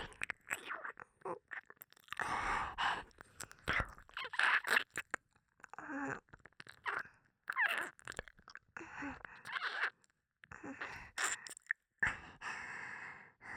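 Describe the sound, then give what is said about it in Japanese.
Wet ear-licking mouth sounds: many irregular quiet slurps, smacks and tongue clicks come in uneven bursts, mixed with soft breaths and sighs. “私、初めて耳舐めしてるんですけど、うまいですか？”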